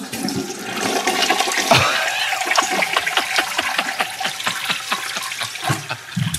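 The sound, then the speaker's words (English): A toilet flushes with a loud, continuous rush of swirling water and gurgling that holds steady for several seconds, with no voices. “Flush it.”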